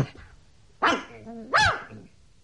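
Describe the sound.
A dog barks while straining and tugging at its leash: two sharp, whiny barks about a second apart, loud against a low, steady background.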